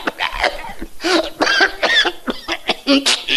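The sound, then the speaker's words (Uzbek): An elderly, sick man coughs at a pharmacy, with many rough, throaty bursts in quick, irregular succession, some carrying a voiced, groaning edge. “Bir otaxon betob bo'lib qoptilar. Yo'taladigan bo'lib qoptilar.”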